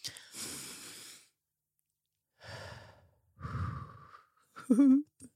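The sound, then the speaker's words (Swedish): A group taking a deep breath together: a long, airy inhale, then breathy exhales that grow heavier, ending in a short voiced sigh. “Nu vill jag att vi börjar med att ta ett gemensamt, djupt andetag.”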